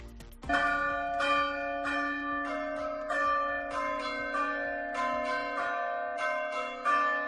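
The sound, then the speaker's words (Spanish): A bell-like chime melody, the alert tune meant to warn people in Navarra of climate events such as heat waves or floods, rings out alone after a brief quiet start, with many clear ringing notes sounding over sustained tones at steady loudness. “Quédate con este sonido, con esta sintonía. Y es que esta melodía va a avisar y va a alertar a la población navarra de eventos climáticos, como por ejemplo olas de calor o inundaciones.”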